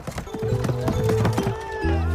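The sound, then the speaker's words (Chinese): A horse-drawn carriage gallops past through a busy market, its hooves clip-clopping rapidly and fairly loudly over steady tonal sounds in a short burst. “突然一辆马车疾驰而过，扬尘拂面。”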